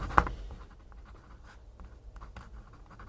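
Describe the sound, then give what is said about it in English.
Pen scratching as the date is written on a seed pot label, faint dry strokes following one sharper tap near the start, with no talk. “And I'm going to write the date on there as well, so I know when it was sown.”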